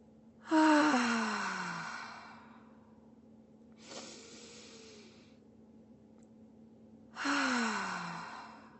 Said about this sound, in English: Just hold, breathe in.